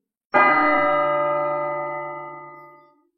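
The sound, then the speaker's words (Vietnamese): An ancient bell rings through the city, struck once with a sharp onset. Its bright metallic tone then hangs and slowly fades over a few seconds, with no other sound. “Tiếng chuông cổ chấn động toàn thành”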